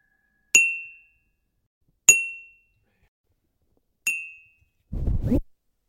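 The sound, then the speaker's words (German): A coffee cup struck three times gives three bright, ringing clinks spaced about two seconds apart, each fading quickly, followed by a short, low, rough burst of noise. “Jetzt kommt das dritte, das ist meine Kaffeetasse. Da hören wir auch mal in die Samples rein.”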